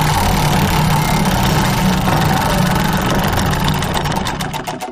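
A wheel spun round and round to pick a name gives a loud, steady, rattling whir. Near the end its clicks become separate and slower and the sound begins to fade.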